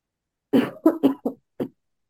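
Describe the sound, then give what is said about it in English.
A person coughs five times in a quick, uneven burst, each cough short and harsh with a clear gap before the last one. There is no talk around the coughs. “My body is just like forcing me to cough.”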